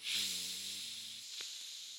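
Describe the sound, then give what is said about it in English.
A deep breath being blown out during a chakra meditation: a long, airy hiss over faint, low humming tones that drop away partway through. “Take a deep breath in and blow into your heart chakra.”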